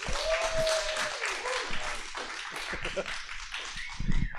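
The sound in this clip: A church audience applauds to welcome a speaker to the pulpit, with a burst of clapping mixed with voices and a few cheers.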